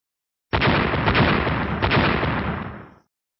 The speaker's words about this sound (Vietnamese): Trong thế giới Tang Tương vang vọng ba tiếng nổ